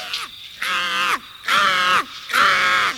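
A captured bird caws in three loud, harsh, evenly spaced calls, each sustained and slightly falling at the end, with no other sound.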